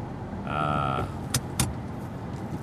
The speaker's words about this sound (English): I am driving home.